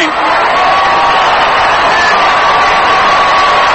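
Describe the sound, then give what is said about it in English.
Baseball crowd roaring at a Giants home game against Cincinnati in the eighth inning, a loud, continuous wall of cheering and shouting that stays level throughout. “Big roar from the crowd.”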